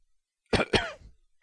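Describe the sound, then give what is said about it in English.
A man clears his throat in two short, rough, guttural bursts followed by a softer fading rasp, alone against silence. “He cleared his throat.”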